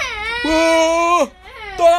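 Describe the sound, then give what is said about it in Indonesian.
An infant cries in loud, sustained wails with a strained, harmonic tone. The crying breaks off briefly after about a second, then the wailing starts again. “Daya! Daya! Aduh, dia nangis.”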